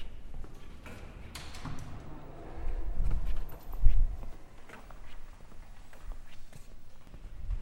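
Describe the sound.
Footsteps cross a hard floor at the foot of a staircase toward a glass door, a steady stream of soft, fairly faint steps with a few heavier thuds bunched near the middle.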